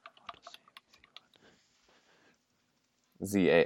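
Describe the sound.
Light keyboard typing in a quick burst of clicking keystrokes that taper off into a pause before someone begins speaking.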